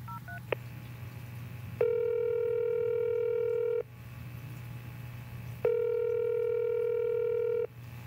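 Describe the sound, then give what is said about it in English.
A telephone call is placed. A quick burst of keypad dialing tones comes first, then two long, steady ringback tones separated by a pause, all over a low constant hum. “I thought I'd surprise him with a phone call to find out the latest.”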